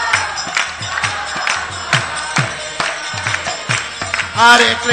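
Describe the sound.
Rhythmic clapping from a crowd keeps time with a Hare Krishna chant, with steady, evenly spaced claps under chanting voices and a louder swell of voices near the end.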